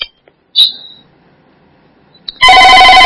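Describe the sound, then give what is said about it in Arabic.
A telephone ringing: a short, high electronic chirp, a quiet pause, then a loud, bright ring with rich harmonics that starts abruptly and holds to the end, with no voices. “الصوت الأول هذا صوت في التليفون لكن على الجهاز بس المتقطع.”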